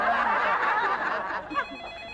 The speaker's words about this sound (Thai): ใครโทรมาอีกแล้ว